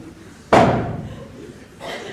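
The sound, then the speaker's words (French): Heavy wooden knocks, the stage manager's traditional three blows struck before the curtain rises on a theatre's opening night. A few loud, dull thuds stand alone against a low background hum, with a pause between the first blow and the last. “Le soir de la première arrive, le tout Paris est dans la salle et le rideau va se lever. Le régisseur frappe les trois coups.”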